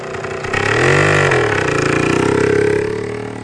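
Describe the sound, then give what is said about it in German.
A vehicle engine drives off with a steady, droning motor note. It swells in loudness with shifting, revving pitch, then eases slightly toward the end. “Weg ist sie. Fährt auf direktem Weg in die Redaktion des Neustädter Tageblattes.”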